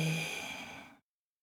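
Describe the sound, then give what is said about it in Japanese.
Long, full exhalation during a guided breathing exercise: a soft, breathy whoosh that fades gradually for about a second and then stops. “長く、息を吐けるだけ吐いて、”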